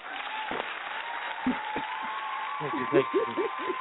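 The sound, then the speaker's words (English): Recorded applause stands in for a virtual studio audience on an indie music radio show: a steady wash of clapping, with a voice talking over it near the end. “Our virtual in-studio audience.”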